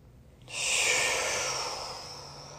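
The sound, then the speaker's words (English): A deep breath taken before reading aloud: one long, airy rush of breath starts abruptly and holds steady, slowly tapering off, with no talking. “I'm going to take a deep breath before I start reading this to you.”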